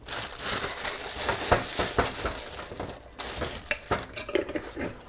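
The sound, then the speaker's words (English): Kitchen scraping and clatter as chopped ingredients are slid into a liquid mix of tamarind, rice wine, vinegar, fish sauce and sugar, with irregular knocks of utensils against a dish between softer scrapes. “So I've chopped those up and I'm sliding them into the liquid, into the tamarind, rice wine, vinegar, and fish sauce and sugar mix.”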